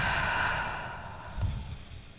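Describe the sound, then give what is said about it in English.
A slow, breathy exhale during a guided deep-breathing exercise. It is steady and soft at first, fades gradually, then shows a brief fuller puff of breath near the end, with no talking. “Breathe in, hold it, and then let it all go.”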